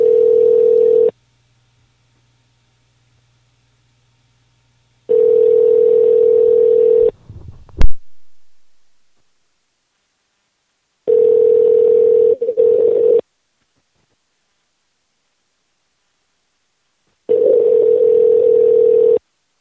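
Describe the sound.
A desk telephone gives four steady, mid-pitched tones separated by long silent pauses, with a sharp click partway through.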